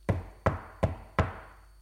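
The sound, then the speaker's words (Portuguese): Four knocks on a palace door, sharp evenly spaced raps that are fairly faint and heard alone. “bateram à porta do palácio Maria Raposa e João Gato.”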